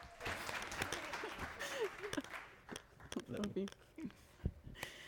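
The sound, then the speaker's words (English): An audience applauds to welcome a speaker to the stage. Faint, scattered claps come and go while voices talk over them. “come on, will you put your hands together and welcome to the stage my wife, Amanda Miller!”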